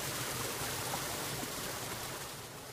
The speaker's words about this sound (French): Nous sommes au bord de la rivière Mukuzi, puis précisément à l'endroit où l'on aménage le micro-barrage d'irrigation des champs se trouvant sur la colline Busimba de la commune et province Muramvya